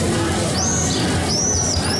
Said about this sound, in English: the swifts fly nearly 3,000 miles to reach this spot.